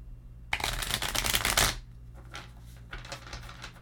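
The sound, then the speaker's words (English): Tarot cards are shuffled in a loud, dense riffle of papery rustling lasting over a second, followed by two softer, shorter bursts of card shuffling. “And I would like to do the tarot pull now. Little tarot card ASMR, which is always lovely.”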